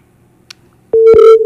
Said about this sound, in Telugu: Hello hello call cut అయిందండి.